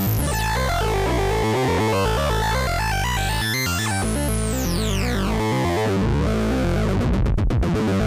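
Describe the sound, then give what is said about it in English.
A Eurorack performance VCO synthesizer oscillator module, originally built for a large-format 5U modular system, gives a loud, buzzy, distorted drone with rich harmonics and sweeping pitch glides that rise and fall. “That is the sound of the Look Mum No Computer Cosmo 1222 Performance VCO.”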